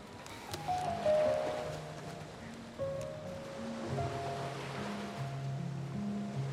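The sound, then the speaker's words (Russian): Sea waves wash onto the shore in a soft, steady surf with gentle swelling surges, quiet overall, with faint sustained tones underneath. “Они подошли ближе к морю”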